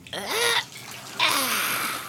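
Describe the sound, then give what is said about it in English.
Water splashes in a bubbly bath during a cartoon bath time, in two splashy, gurgling bursts separated by a brief quieter gap. “He splished and he splashed as Blue helped scrub all the mud off little Oogla Boogla.”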